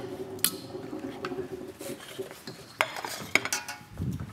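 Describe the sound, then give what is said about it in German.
Al dente pasta being tossed into sauce in a pan, a faint soft squishing and stirring broken by a few sharp metallic clinks of utensil against cookware. “Die Pasta gibst du in die Soße mit rein? Klar. Al dente gekocht? Ja, rein damit.”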